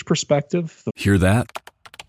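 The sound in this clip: Computer keyboard typing by a hacker stealing crypto: a voice speaks briefly, then a quick run of light key clicks follows.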